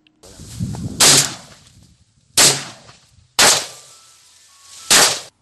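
Four loud, sharp gunshots ring out, fired by a farmer to drive locusts away from his crops. They come at uneven intervals with short quiet gaps between them, after a stretch of lower, rougher noise at the start.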